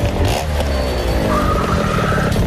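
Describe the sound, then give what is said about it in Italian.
A motorbike arriving, its engine a loud, continuous buzzing drone that shifts in pitch as it comes in, with no pause throughout. “Ancora in moto arriva.”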